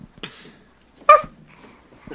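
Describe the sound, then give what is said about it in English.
A person in a studio imitates a dog barking, giving a few short, sharp vocal barks separated by quiet gaps. The middle bark is the loudest. “Can you bark? Who let the dog in the studio?”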